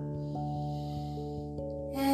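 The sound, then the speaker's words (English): A deep breath is drawn in through the nose as a brief, breathy rush at the very end of a guided breathing exercise. Before it, sustained droning tones with soft, regularly struck bell-like notes play alone. “Take a deep breath in your nose.”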